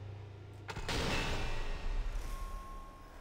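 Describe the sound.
Gunfire in a zombie shooter video game: one sharp, loud crack followed by a lingering noisy rumble.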